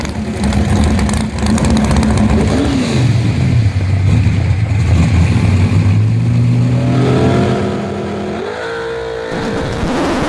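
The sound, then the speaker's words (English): A drag racing car engine roars loudly and continuously in a sound effect. Its pitch sinks after a few seconds, holds low, then climbs again near the end. “That's my NHRA drag racing sound effect.”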